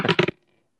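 Dice rolled for a constitution saving throw in a tabletop role-playing game, a brief rattling clatter of a few rapid hits that stops abruptly after about a third of a second, with no voices.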